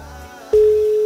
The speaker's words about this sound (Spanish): Estamos marcando, estamos llamando. Tenía un poquito más de números este celular